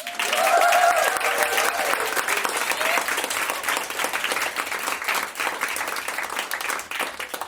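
A live audience claps and cheers enthusiastically on request: dense, steady applause holds throughout, with a whoop rising above it at the start.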